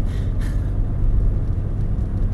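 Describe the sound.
Low, steady rumble of a car driving, heard while riding as a passenger: a dense, continuous bass drone with no speech.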